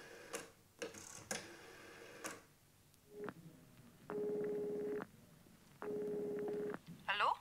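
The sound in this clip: Telephone being dialed to connect a call: a few dry clicks and taps, then two buzzing ringing-tone bursts of similar length with a pause between them.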